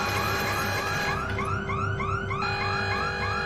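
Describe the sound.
An electronic alarm blares from a wall-mounted speaker. It is loud and unbroken, with repeated rising whoops over steady high tones and a low pulsing throb beneath.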